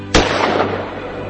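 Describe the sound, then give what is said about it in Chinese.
A single gunshot: a sudden loud crack with a short ringing decay afterward, heard alone with no voices. “于是枪声响起”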